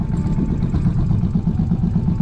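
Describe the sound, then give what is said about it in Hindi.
A Bullet motorcycle engine throbs with a low, steady, loud rumble as the bike comes to a stop. “Bullet रुकते ही अयान के होश उड़ जाते हैं”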